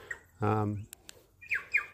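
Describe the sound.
Call of a pigeon-sized, very vocal bird with a small white patch of feathers on its throat: a harsh, harmonic squawk followed by two short, bright chirps that slide downward in pitch.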